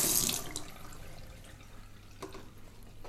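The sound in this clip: Tap water runs into a sink while a bottle is rinsed beside dirty dishes, a splashing flow loudest at the start, then settling into a quieter trickle with small splashes.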